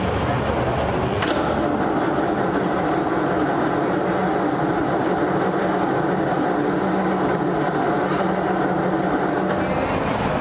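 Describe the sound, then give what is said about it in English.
An old Ford vehicle's engine, idle for at least a month, runs with the choke pulled partly out and throttle applied. It gives a loud, constant rumbling drone that holds steady throughout, with a sharp burst near the start. “It hasn't run for at least a month sitting here. So he just pulled the choke out a bit. Yeah. Giving it some gas.”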